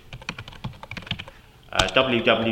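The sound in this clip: Typing on a computer keyboard while entering an email sign-off: many quick, uneven keystrokes clatter in bursts, then a voice starts speaking over the last moments.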